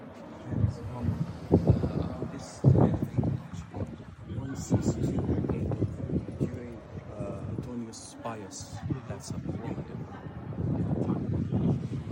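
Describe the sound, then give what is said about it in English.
Wind buffets the microphone at an ancient 2nd-century acting theater, a rough, uneven low rumble running under a voice that talks throughout. “so a lot of wind there”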